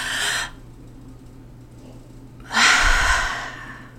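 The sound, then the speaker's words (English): A deep breath of fresh air gives two loud, breathy rushes separated by a quiet pause. The second rush is longer and stronger than the first. “Let's all take a deep, deep, deep, deep breath.”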